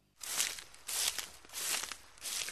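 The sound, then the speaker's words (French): Footsteps crunch over forest ground in a fairy-tale scene of children being walked deep into the woods, with a few slow, even steps, each a broad rustling crunch separated by brief pauses. “Leur père les fit marcher longtemps dans la forêt.”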